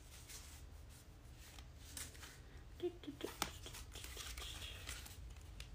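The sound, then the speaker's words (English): Faint papery rustling and shuffling of an oracle card deck as a single card is drawn, with a few small crisp scrapes. “So let's pull a little card and see what comes up.”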